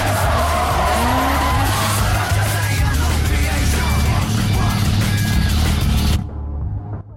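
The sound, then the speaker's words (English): Loud, continuous tire squeal and engine roar from a car drifting in sweeping circles around a silver and blue Nissan, tire smoke swirling. The skid noise holds steady, then cuts off sharply just before the end. “Han drifts the veil-side round the Nissan in sweeping circles. Smoke from the tires and the exhaust create a ring around the silver and blue car”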